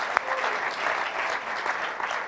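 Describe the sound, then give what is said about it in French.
Audience applause at a church service: dense, continuous clapping from many hands holds at a steady, fairly loud level for the whole clip. “On peut leur donner une main d'applaudissement, s'il vous plaît?”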